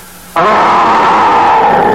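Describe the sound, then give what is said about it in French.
A voice imitates a big bear's growl: after a quiet moment, a loud, rough, sustained roar starts abruptly and holds steady to the end. “Et fais un terrible grognement d'ours.”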